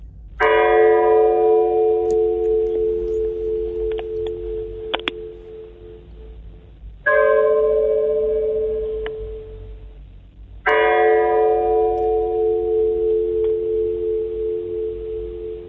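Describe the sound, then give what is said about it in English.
A bell strikes three deep, resonant bongs, each with a long humming decay. The first tone rings out alone before the next two follow at a closer spacing, with no voices. “It's Big Ben's bongs. No, it's not Big Ben's bongs. Someone's bongs.”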